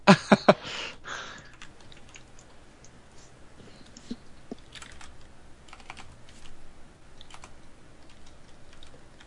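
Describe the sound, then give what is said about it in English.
Typing on a computer keyboard, attempted quietly: a few loud clacks at the very start, then soft, scattered key clicks that continue faintly and irregularly throughout, with no talking. “I'm trying to type quiet. That's never gonna happen.”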